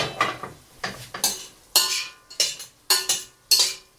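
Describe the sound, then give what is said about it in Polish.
Scraping, clinking strokes of a utensil stirring cubes of meat roasting in a pan, repeating as a steady series of short bursts with brief pauses between them. “Mięsko trzeba mieszać starannie, tak żeby każda kostka miała szansę opiec się dokładnie z każdej strony.”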